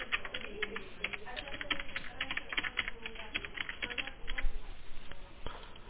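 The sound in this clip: Fingers type on a computer keyboard in a quick, uneven stream of sharp key clicks, with bursts and brief pauses and a faint murmur of voice underneath.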